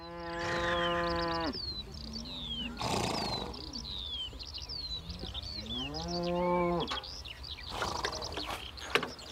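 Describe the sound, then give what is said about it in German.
Cattle mooing loudly on a pasture shared with thoroughbred horses, several long drawn-out lowing calls with rising and falling pitch, over a steady bed of birdsong chirps and outdoor ambience. “Seine edlen Vollblüter stehen zusammen mit Rindern auf der Weide und nicht in einzelnen Boxen in einem Stall”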